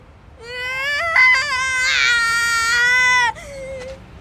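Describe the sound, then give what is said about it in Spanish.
A baby cries in one long, loud wail whose pitch wavers and strains, then breaks off into a shorter, softer cry. “Espera, amigo, no llores, ¿de acuerdo? No quiero cambiar pañales.”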